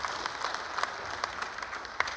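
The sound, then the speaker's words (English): A church audience claps along during a sermon, with many hands making a steady, rhythmic patter at a modest, even level. “Now I believe, yeah, give God some praise. Give Jesus some hand clap there.”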